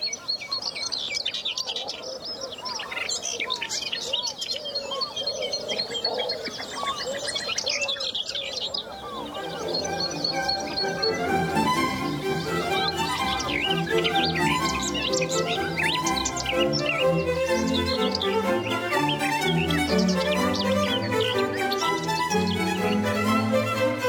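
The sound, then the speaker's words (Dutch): A garden warbler sings close by in a long, rapid, bubbling warble of bright notes. Other birdsong fills in around it, and a denser low layer of calls builds in the second half. “Maar de tuinfluiter hoor ik bijna nooit zo dichtbij.”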